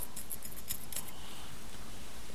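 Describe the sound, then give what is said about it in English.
Scissors snipping while trimming up a rough cut around the edges: a few sharp, bright metallic clicks in the first second, then a faint rustle with no voices. “It is not a pretty cut. Oh. I'll get it.”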